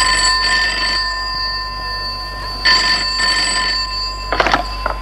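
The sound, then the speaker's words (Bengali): A telephone bell rings in repeated bursts, a loud, bright metallic trill that starts and stops a few times with short gaps between rings. No one speaks. “দেখো, আবার phone এলো কার।”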